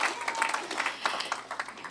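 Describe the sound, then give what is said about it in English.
Applause from a church gathering for a woman being honored: many quick, overlapping hand claps in an uneven patter, moderately soft and steady for the whole moment. “Give a hand clap for her.”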